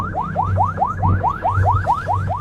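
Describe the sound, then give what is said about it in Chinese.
Siren on a China Coast Guard patrol boat, a loud electronic yelp of rapid, evenly repeated rising whoops, about ten in quick succession, over a steady low engine hum. “开警报”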